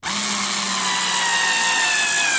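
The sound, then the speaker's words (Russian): A power screwdriver drives a self-tapping screw into laminated chipboard to fix telescopic drawer runners during furniture assembly. It gives one loud, steady motor whine with a scraping grind that runs for about two and a half seconds. “Саморез вошел в плиту ЛДСП, прижимая хитрые телескопические полозья.”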